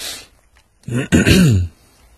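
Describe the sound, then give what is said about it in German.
Someone coughs and clears their throat, one loud, brief rasping burst with a voiced, gravelly tail, alone with quiet before and after. “Muss ich auch gleich husten, wo da immer jemand gehustet hat.”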